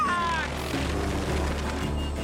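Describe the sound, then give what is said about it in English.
Helicopter weaving and spinning with a drunk, half-asleep exec at the controls as it approaches an estate: a continuous heavy rumbling whir of rotor and engine, with a brief high whine at the start. “a helicopter with a spotlight approaches an extravagant estate. The exec at the controls is inebriated and half asleep, causing the copter to weave and spin.”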